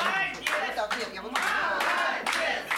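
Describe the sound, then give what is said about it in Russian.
Audience applause fills a concert hall in Vladimir as a diploma is presented at a regional festival for visually impaired people, brisk clapping with voices mixed in. “Мы благодарим вас за участие в нашем фестивале и вручаем вам почетный диплом. Пожалуйста, под бурные аплодисменты зрителей.”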